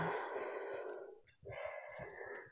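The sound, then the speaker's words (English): A group takes a deep breath together during a coaching training session: two long, soft, airy breath sounds separated by a brief pause, with no talk. “Let's take a deep breath.”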